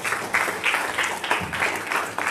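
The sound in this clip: A church audience applauds to welcome a speaker to the morning service, a steady patter of many hands clapping at moderate volume with no clear pauses.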